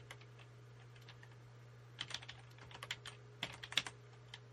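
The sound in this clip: Typing on a computer keyboard: many faint, quick key clicks in uneven bursts over a steady low hum, with no talking.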